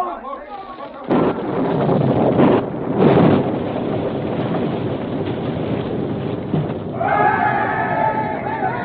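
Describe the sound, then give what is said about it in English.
Planted blasting powder explodes to destroy a bridge, breaking in as a loud, sustained rumbling roar with a heavier burst early on and a continuous windy, noisy rush that persists to the end. “The state will do it, but there's powder planted. Fire the blast!”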